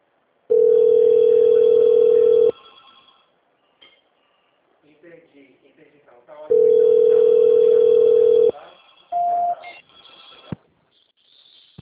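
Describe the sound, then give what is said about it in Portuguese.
A telephone line plays its waiting tone while a call is being transferred. Two long, steady tones of about two seconds each are separated by a long pause. A short, higher beep follows, with faint scattered sounds in the gaps. “Tô ligando pela segunda vez, hein? Transferindo pela segunda vez.”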